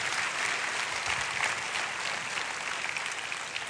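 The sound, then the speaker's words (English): Church audience applauding to welcome a guest pastor, a soft but steady wash of many hands clapping that continues evenly without a break. “So I want you to give the best Celebration Church welcome you can. Would you put your hands together for my friend Pastor Steve Robinson?”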